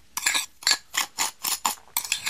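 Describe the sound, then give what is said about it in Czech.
A spoon stirs powdered ingredients with a little coloring in a container, making a quick, steady series of short scraping, clinking strokes. The strokes are evenly spaced and moderately loud, with no talking. “poprosím, jestli bys všechny práškové složky pořádně promíchal.”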